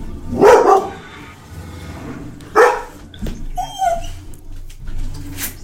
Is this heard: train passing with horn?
no